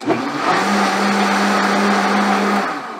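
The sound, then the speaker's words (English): A blender whirs through a keto pumpkin spice latte mix in one loud, sustained burst with a steady motor hum that fades slightly at the end. “And then we're just going to blend it. We're going to pulse it until it's thoroughly blended.”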